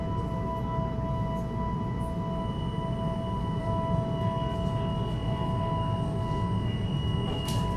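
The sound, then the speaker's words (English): A commuter rail train runs on the University of Colorado A line to Denver Airport Station, heard as a steady low rumble with constant electric hum tones, unbroken for the whole stretch, with a faint squeal near the end. “Welcome aboard our TV commuter rail. This is the University of Colorado A line to Denver Airport Station.”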